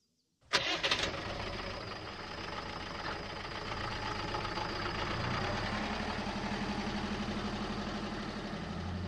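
A car engine starting: a brief sharp crank catches, then the motor settles into a steady, loud, even rumbling idle that continues to the end.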